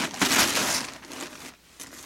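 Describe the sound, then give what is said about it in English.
Paper and packaging crinkle and crumple as a parcel delivered by the postman is opened after its string is cut, a dense, loud rustling that eases off briefly near the end before another crackle. “Open it, Daddy, open it. Okay, okay, lean back so I can cut the string. There it is.”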